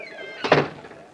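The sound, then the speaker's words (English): A door in a ship captain's cabin is shut with one solid, heavy thunk and a brief rattle, then quickly fades to quiet. “Shut the door behind you.”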